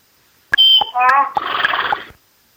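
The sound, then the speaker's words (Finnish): A short listener-made jingle named Aasin silta opens with sharp clicks, then whistling, neigh-like tonal cries and a braying burst, loud and lasting under two seconds before it cuts off. “Meille lähettänyt jinglen tällä, joka kuulostaa tällaiselta.”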